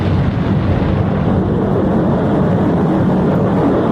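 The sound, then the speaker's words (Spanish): A spacecraft lifts off for the Solar Probe project, its engines producing a loud, steady, deep roar that holds constant and unbroken throughout, with no voices. “Despegue perfecto. El proyecto Sonda Solar está en marcha.”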